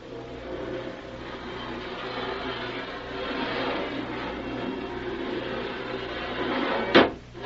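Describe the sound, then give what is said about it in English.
Closing a ship's port hatch: a single sharp clunk near the end, standing out over a steady low rumble and noisy background that runs throughout. “Help me close this port. Gently. Gently it is.”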